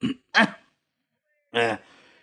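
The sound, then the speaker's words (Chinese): A man clears his throat before addressing a banquet hall: a few short, rough throaty bursts, then a pause and one more voiced grunt. “何占鳌又面对整个宴会厅，先清了清嗓子。”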